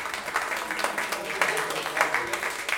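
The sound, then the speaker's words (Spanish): Audience applause: a steady wash of clapping from many hands at moderate loudness, with scattered sharper claps. “Un aplauso aquí para Peter”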